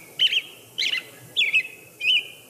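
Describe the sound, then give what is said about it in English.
A robin calls in springtime with four short, bright cheep notes, evenly spaced about half a second apart, each high-pitched and clear against a quiet background. “everybody kind of gets excited when they hear Robin around springtime, when they return, and this is what you hear is cheep, cheep, cheep”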